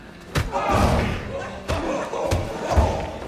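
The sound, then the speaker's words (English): Punches land in a fight: a few dull heavy thumps and slams cut through shouting and crowd noise, with voices rising between the blows. “aims a punch”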